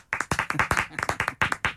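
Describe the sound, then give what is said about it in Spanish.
Rhythmic clapping in a radio studio, many crisp hand claps in quick, fairly even succession, moderately loud and close, lasting just under two seconds. “La cita Nelly quiere los aplausos, me mira para no, acá.”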